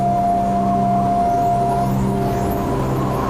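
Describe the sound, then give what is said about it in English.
A car driving on a road toward Baoxing gives a steady, loud engine drone with a low hum and constant broad road noise that stays even throughout. “We drive 280 kilometers to Baoxing.”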